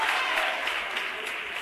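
An audience at an arts festival gives steady applause to the executive mayor, with dense clapping that fades only slightly toward the end.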